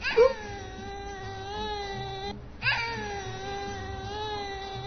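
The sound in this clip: A young child cries after a turquoise-green balloon held to a candle popped: two long, sustained wailing cries with a steady pitch, split by a brief pause, loud and alone.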